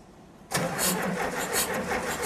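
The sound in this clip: A car engine being started: a quiet moment, then it fires abruptly and keeps running with a rough, pulsing roar.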